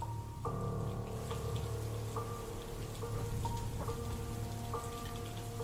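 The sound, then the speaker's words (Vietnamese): Light, cold afternoon drizzle falls steadily, a continuous soft hiss of raindrops pattering on surfaces that stays even in loudness from start to finish, with no voices. “Mưa chiều lất phất vô tình, từng giọt nước mưa táp vào mặt như hành hạ những người đi bộ.”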